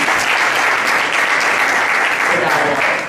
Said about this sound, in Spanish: Un aplauso, por favor.